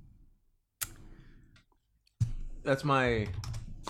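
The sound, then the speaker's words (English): Typing on a computer keyboard: a few sharp, sparse key clicks separated by quiet gaps, with the busier, louder stretch of activity toward the end. “Type faster.”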